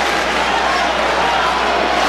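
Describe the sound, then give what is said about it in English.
A baseball crowd at a Cardinals home game against the Braves: a steady, loud wash of murmuring and cheering voices that holds at an even level throughout, with no single event standing out. “And the crowd is back into the game after Jordan Walker silenced the crowd for just a short time with his three-run homer.”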